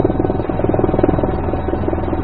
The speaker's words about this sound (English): They need a helicopter to get ahead of the whales and to land them on the fragile sea ice.